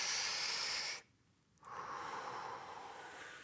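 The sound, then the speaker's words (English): Deep belly breathing that pulls down the diaphragm: a long, loud, airy hiss, a brief near-silent pause, then a second steady breath of similar length. “So it's just breathe in by extending the belly, pulling down the diaphragm and filling up the bottom part of the lung.”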